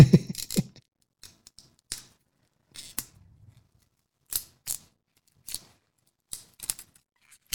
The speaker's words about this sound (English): So without further ado, I'm going to clip this foil, and I'm hoping some of that fancy woodwork they're talking about is on the top of this.